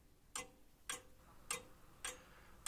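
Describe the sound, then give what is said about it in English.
Grandfather clock ticking in a video game: four crisp, evenly spaced ticks ring out alone at a steady, unhurried pace, each a bright click with a short metallic ring. “I guess I'll go look for this clock because grandfather clocks are cool”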